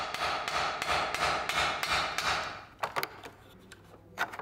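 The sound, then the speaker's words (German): A hammer peening the edge of a scythe blade about 65 cm long, a rapid, even run of bright metallic strikes followed by a few sparser, sharper taps. “Das Dengeln oder Klopfen, ein wichtiger Arbeitsschritt.”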